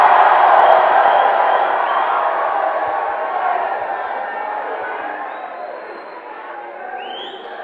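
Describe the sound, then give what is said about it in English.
Church audience shouting praise to the Lord, a loud burst of mixed cheering and whooping voices that gradually fades over several seconds. “Give the Lord a shout of praise.”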